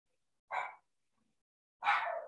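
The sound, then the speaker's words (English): Two short, quiet dog barks separated by a pause of about a second, from dogs reacting to a lawnmower cutting grass next door. “My dogs are gonna freak out. We have somebody cutting the grass next door and they just hate the lawnmower.”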